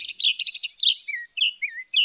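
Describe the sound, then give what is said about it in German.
A North American mockingbird sings: a quick run of bright, high chirps, then several varied, slurred whistled phrases separated by short gaps. “Und einen besonderen Trick dabei hat die nordamerikanische Spottdrossel drauf. Die hört sich so an.”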